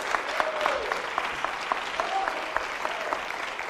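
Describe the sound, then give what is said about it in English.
A church audience giving a big hand during a morning service, with steady, moderate applause from many people and scattered sharper claps standing out. “Let's give them a great big hand this morning.”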